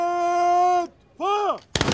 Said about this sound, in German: auf Nimmerwiedersehen Wallenstein, ein letzter Kanonenschlag.